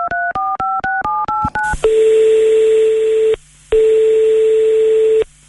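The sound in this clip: A telephone number is dialed on a touch-tone phone, giving a quick run of about seven short beeping tones. Two long, steady single-pitch ringing tones follow, separated by a brief pause. No one speaks.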